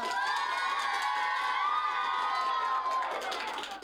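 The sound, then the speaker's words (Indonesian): An audience at an elementary school children's talent performance cheers and applauds, a loud, sustained mix of high shouting voices, whoops and clapping that stays full throughout before easing slightly at the very end. “Sekali lagi dong, berikan tepuk tangan yang meriah untuk Vio.”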